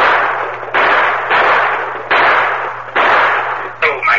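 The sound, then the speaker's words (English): Gunshots as a radio drama sound effect: several loud, noisy blasts in close succession, each with a broad rumbling decay, and a voice briefly at the end. “Got a slug in my shoulder. If anybody else pulls a gun, you'll get worse than that.”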